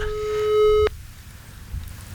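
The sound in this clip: A telephone call sounds over a speakerphone as a single steady electronic tone lasting under a second. It cuts off abruptly and leaves quiet background noise.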